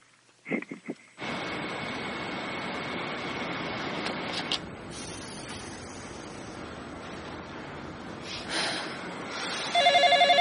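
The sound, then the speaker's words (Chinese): A telephone rings in a public phone booth where a woman is placing a call. The ringing sits over a steady, loud wash of noise, after a few short bursts at the start. “电话响了，女生在公用电话里面，公用电话亭里面拨电话。”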